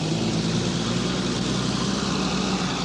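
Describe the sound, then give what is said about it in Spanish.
A car's engine as the vehicle sets off after its door is shut, a continuous low drone and rumble that holds at a steady level throughout, with no separate sounds standing out. “Cierra la puerta. El vehículo emprende la marcha.”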